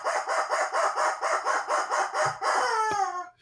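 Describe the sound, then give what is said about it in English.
A squeezed rubber chicken squawks in a rapid run of many rasping, honking pulses at an even rhythm. It ends in a stretched squeal that drops in pitch. The squawk is loud and sounds alone. “And the rubber chicken says,”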